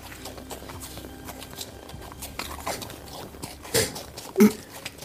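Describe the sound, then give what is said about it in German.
Horse hooves clip-clopping on a horse-drawn carriage ride: faint, irregular clops over soft rustling, with two louder knocks near the end. “Und ihr seid auf der Kutschfahrt. Die geht sehr lang.”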